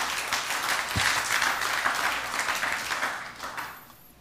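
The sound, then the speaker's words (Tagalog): A church audience applauding God during a sermon: dense, steady clapping across the whole clip that thins out and fades toward the end. “Palakpakan nga po natin yung Panginoon.”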